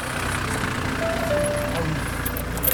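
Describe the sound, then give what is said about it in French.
A car pulls into a village and parks in front of a restaurant: a steady engine rumble holds at an even level throughout, with a faint thin whine on top and a slight swell near the end. “La voiture des Lemoine arrive dans le village et se gare devant le restaurant.”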